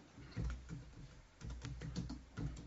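Quiet typing on a computer keyboard while entering text, with many irregular soft key clicks in short bursts.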